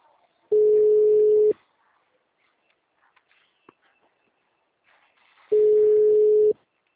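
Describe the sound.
Telephone line tone on a call that will not go through: two steady, mid-pitched beeps about one second long, spaced roughly four seconds apart, with near silence between them.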